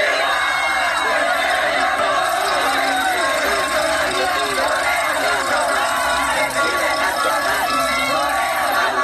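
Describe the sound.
A huge crowd of Mexican football fans chants a celebratory song at a street celebration at the Minerva, a loud, dense mass of many voices shouting and cheering without pause throughout.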